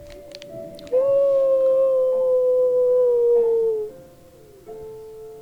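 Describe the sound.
A long, loud, sustained howl, steady and slightly falling in pitch for about three seconds, followed by a fainter, shorter tone.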